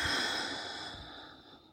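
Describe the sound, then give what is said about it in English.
A single deep breath, a breathy airy rush that starts strongly and steadily fades away over under two seconds, with no talk. “you have me on an AirPod, just take a deep breath in, y'all, like a big deep breath. Hold and release.”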